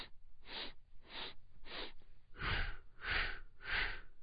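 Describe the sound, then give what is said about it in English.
Rhythmic breathing, drawing air in through the nose and blowing it out through the mouth: a few softer, narrower inhales, then a few louder, breathier exhales, evenly spaced and faint. “So it's something like this. You'll inhale through the nose and exhale out your mouth.”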